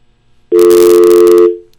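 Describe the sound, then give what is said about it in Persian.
A telephone line tone sounds after a call with a caller drops: a single steady electronic tone that holds loud and alone for about one second, then cuts off. “فکر کنم که تماس ما با آقای سعید زاده قطع شد.”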